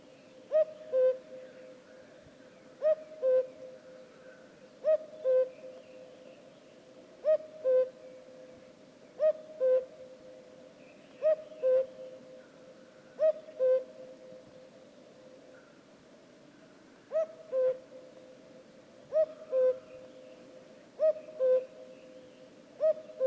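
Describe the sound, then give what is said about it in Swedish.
A Eurasian eagle-owl gives deep, low hoots at a steady pace about every two seconds. Each call is a short, clear double note over faint background hiss. “Berguv.”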